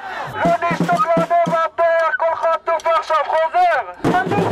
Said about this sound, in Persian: شب گذشته هزاران نفر در شهر اورشلیم به همین منظور دست به تظاهرات زدند.